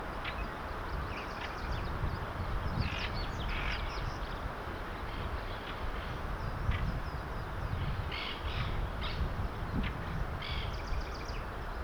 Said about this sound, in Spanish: Yellow al lado del nido callada, los ruidos son de Stripe.